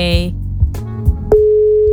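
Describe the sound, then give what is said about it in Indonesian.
Telephone tone while placing a call: a steady, unbroken tone sounds after a few moments of conversation and continues to the end. “Daripada kita menerka-nerka, kita telepon aja. Oke, okay, boleh dong. Ya, telepon aja ya.”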